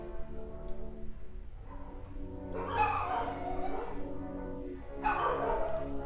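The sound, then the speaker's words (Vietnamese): A dog barks in a few short, loud bursts, one near the middle and one near the end, over a steady background of sustained tones. “Chó bắt đầu sủa.”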